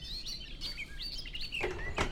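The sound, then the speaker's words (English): A garden warbler sings in woodland undergrowth, with rapid, varied warbling phrases of chirps and short whistles in a fairly deep voice, delivered clearly and continuously. “Dans le sous-bois, la fauvette des jardins, dont la voix assez grave fait penser parfois au merle ou à la grille.”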